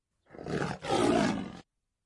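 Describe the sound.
A lion roars on its own, one loud, deep, rough roar lasting about a second and a half, split into two broad surges by a brief break.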